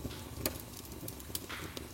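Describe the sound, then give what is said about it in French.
Fire crackling softly, with a low rustling hiss broken by a few sharp, isolated pops. The sound stays quiet throughout. “écoute les flammes qui dansent et chuchotent, produisant des murmures délicats et rassurants.”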